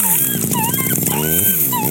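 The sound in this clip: A puppy whimpers in thin, high whines that waver and bend in pitch, running continuously and loudly for about two seconds.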